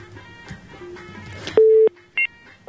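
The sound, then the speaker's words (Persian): Telephone dialing tones as the next caller is rung: a steady electronic tone held for a moment, then a short, higher double beep, following a stretch of faint murmur. “میرم سراغ تماس بعدی، فکر نکنم صدا اینا درست شوه و میگیرم تماس بعدی رو ببینیم کدام عزیز از کجا.”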